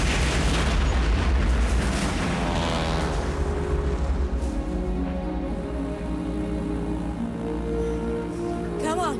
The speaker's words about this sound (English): They fire their mortar as the plane zooms overhead. Hit the ship! But the mortar falls straight back onto the boat.